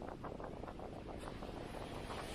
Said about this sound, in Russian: Сейчас на него ветра много. Так. Поворачиваюсь, ветер сбоку.